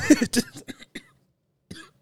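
A cough clearing phlegm from the throat: a rapid run of short, harsh coughs and throat clearing, then one more brief cough after a pause.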